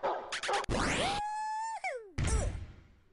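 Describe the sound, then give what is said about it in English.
Synthesized video game effects as a hammer fits a pipe: a few sharp noisy bursts and a rising sweep, then a sustained buzzy tone that bends downward, followed by a harsh burst that fades out. “4 hits of a hammer to fit a pipe.”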